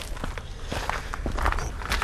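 Footsteps climb the lookout tower at Cibulka in a steady, even rhythm of many treads, the scuffs and thuds echoing over a constant background hiss.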